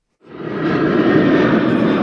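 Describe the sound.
Aircraft roar at Sacramento International Airport, a broad engine rumble that swells in quickly and then holds steady and loud.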